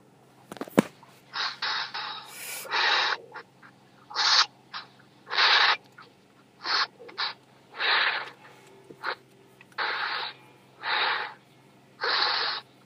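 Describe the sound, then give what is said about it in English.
A person breathes heavily in and out during a healing session, on request, for a stomach pain. Many loud, breathy inhales and exhales follow in an even rhythm, separated by short pauses, with no talking. “Breathe in and out 5 times heavily.”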